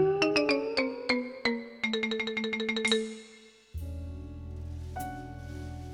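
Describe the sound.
A phone message notification sounds in a hotel on a business trip. A bright run of quick electronic chime notes rings out in a short melody, followed by a different, lower electronic tone pattern.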